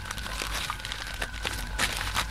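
Gift wrapping paper being torn open at a Christmas present exchange: steady crinkling and crackling, with a few sharper rustling bursts rising out of the paper noise. No voices are heard.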